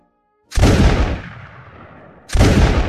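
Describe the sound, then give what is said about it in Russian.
Two loud gunshots during shooting practice in a clearing. Each is a sharp, booming crack followed by a long rumbling decay, and the second comes roughly two seconds after the first. “Звучали выстрелы на поляне в 2 верстах от тракта.”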